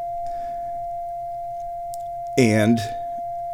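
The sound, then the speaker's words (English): A runaway synthesizer oscillator holds a steady, pure mid-pitched tone throughout, with a fainter lower tone beneath it; a single spoken word briefly cuts in near the end. “that's the runaway oscillator.”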